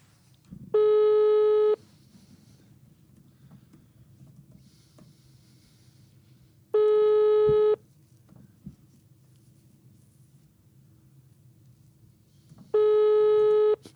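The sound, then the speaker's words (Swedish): Telephone ringing tone on a call to a friend: three buzzy one-second tones, evenly spaced about five seconds apart, over a faint low background hum. “vi ska mm. ringa vår eh, vän i Mälarens Rostock. Ja, då gör vi det.”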